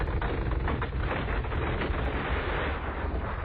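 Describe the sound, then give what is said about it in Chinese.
A deep, gritty rumble of a stone brick wall grinding open in an underground tomb passage, a loud, continuous sound effect with faint crackling running through it and no speech. “前面的天砖墙应声而响”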